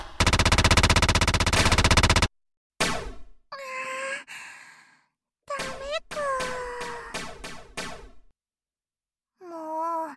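Gunfire from a video game shooter: a loud, rapid automatic burst lasting about two seconds, followed by several short voiced vocal sounds separated by brief silences.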